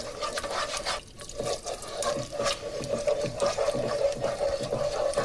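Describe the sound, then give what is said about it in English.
Warm milk being stirred into a sauce in a pan: a steady wet swirling and rubbing of liquid that runs continuously and evenly throughout, with no voices. “Give it a good stir. Add a trickle more. Stir it again. And continue doing that until all the milk's used up.”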